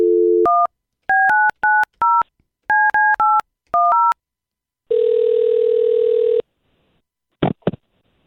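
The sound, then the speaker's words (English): A telephone dialing a call: a quick run of loud electronic keypad tones in short irregular groups, then a long steady tone, followed by a couple of brief clicks before silence. “We'll call him and see if we can't get him on the line.”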